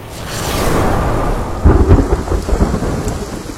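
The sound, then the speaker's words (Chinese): Thunder and heavy rain as an audiobook sound effect: a deep rolling rumble over steady rain, then a sharp, loud crackling thunderclap that breaks into rattling rumbles as the rain continues. “一道闪电突然从天顶快速拖过，紧接着轰隆一声巨响”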